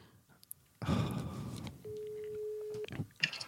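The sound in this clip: A telephone ringback tone sounds while a call is placed, a single steady low-pitched beep lasting about a second, preceded by a burst of rustling noise and a few faint clicks.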